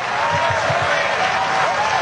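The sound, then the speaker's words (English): Golf gallery applauding after a birdie putt on the difficult 14th hole at Aronimink, a steady roar of clapping with a voice briefly audible over it. “Rory McIlroy, bounce back ability after the bogey on the 13th, gets a birdie to get back to four under par and light the crowd up here in Aronimink.”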